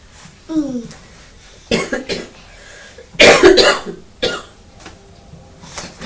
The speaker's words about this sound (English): Mummy's got a cough, hasn't she? Has Mummy got a cough?